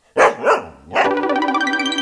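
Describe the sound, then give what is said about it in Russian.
A dog barks twice in quick succession, then lets out a sustained, wavering whine. “Смотрите, Алтай прямо сюда в мастерскую чудесную доску перенес. Ого, какая у вас собака умелая.”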